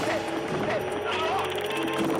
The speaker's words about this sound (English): The bruiser looks to trade blows, but it's the patrolman's 50,000 volt taser that packs a real punch. Incredibly, the shock doesn't stop this hothead.